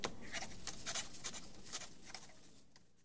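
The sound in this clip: A pen scratching across paper as a customer writes with a smooth-writing pen: a busy run of quick, dry strokes, denser in the first half and thinning toward the end, with no voices.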